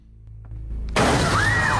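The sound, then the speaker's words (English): A glass cabinet crashes down and shatters. A low hum builds, then a sudden loud burst of breaking glass follows, with bright crashing and tinkling that continues to the end. “She kicks the killer into a glass cabinet that crashes down on top of him as Cindy floats back to the floor.”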